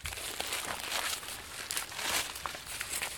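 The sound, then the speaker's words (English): Dry husks of hickory cane corn, a white heirloom corn, are peeled back and the ears snapped off, giving continuous soft rustling and crinkling with a few sharper cracks, fairly faint throughout. “Peel them back. Snap it off. Make sure it's a sound ear. This is hickory cane corn.”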